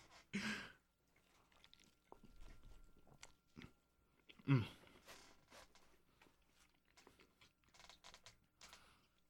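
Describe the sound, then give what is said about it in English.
Biting and chewing on a folded, greasy New York pizza slice: two sharp, crunchy bites stand out, separated by a stretch of softer, irregular chewing and mouth sounds. “Classic way to eat the New York pizza slice. Fold it from the back. flip the tip up.”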